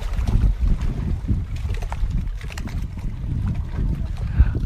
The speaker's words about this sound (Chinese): 你应该可以听到，就是在码头边上风很大，然后湖水拍打着岸边堤岸的这个声音，你应该可以听得到，应该可以录得进去吧。